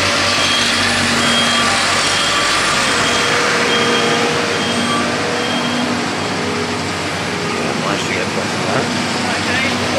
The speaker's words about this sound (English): So there are cranes and vehicles all over the place. There's now something heading towards me.